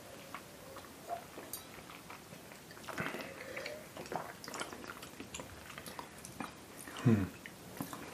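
A drink is sipped and swallowed with soft wet mouth noises and small clicks scattered throughout, quiet and alone, ending in a louder gulp.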